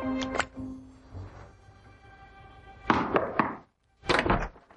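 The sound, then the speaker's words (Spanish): A hotel door opens in an action thriller scene, heard as a few knocking thuds and clunks, then a quieter stretch and another burst of heavy knocks near the end. “abre una puerta de hotel”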